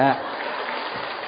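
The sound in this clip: Audience applause at a Buddhist dharma talk, a dense, steady wash of clapping that follows a brief voice at the very start.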